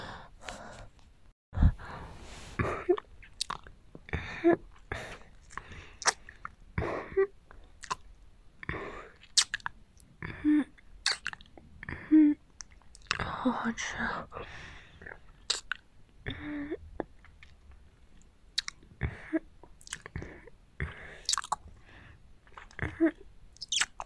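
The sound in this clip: Meatballs being chewed and bitten with wet, squishy mouth sounds, many irregular soft smacks and clicks with occasional breaths, faint throughout.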